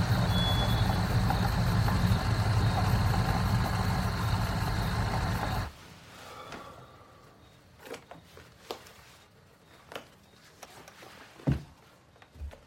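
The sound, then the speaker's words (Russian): Car engine rumbling loudly and steadily as the vehicle pulls up near a house and stops, then cutting out abruptly, leaving quieter scattered clicks and knocks. “загасив фары, останавливается автомобиль”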